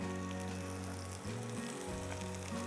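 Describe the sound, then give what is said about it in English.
Butter and flour sizzle steadily in a pan as a roux is started, a continuous fairly loud frying hiss with an underlying low hum and a brief dip in the middle. “I'm going to make a roux. Ek roux jo hai na combination hota hai maida ka aur butter ka.”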